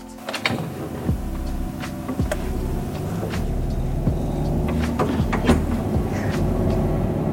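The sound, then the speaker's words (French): Car engine and road rumble from a driving simulator set on a motorway at 120 km/h: a steady low drone with layered engine tones, broken by a few soft clicks, with no voices. “Donc là, je suis sur l'autoroute. Je surveille ma vitesse quand même. Là, je suis à 120.”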